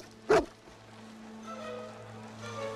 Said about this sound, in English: One more. The bully glares. Beethoven, bark.